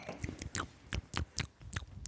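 Roasted almonds are chewed in a quiet, steady run of many crisp, crunchy bites.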